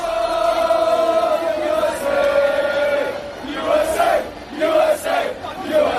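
Football fans in Seattle chanting a simple song: a sustained, sung crowd melody of long held notes, followed by shorter repeated phrases that rise and fall in loudness.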